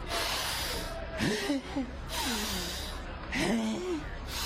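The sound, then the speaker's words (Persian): A person takes deep breaths, long airy hisses of inhaling and exhaling that alternate with short voiced sighs or groans between them. “الان داری چی کار میکنی؟ خودم نفس عمیق میکشم دیگه.”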